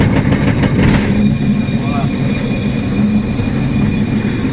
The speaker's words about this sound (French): Le concassage vient de commencer.